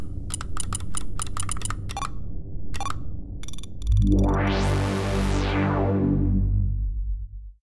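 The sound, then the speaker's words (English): Password being typed on a computer keyboard: many quick, crisp key clicks in an uneven rhythm, then a loud sustained harmonic drone swells in and takes over. “All right, I'll just type that in.”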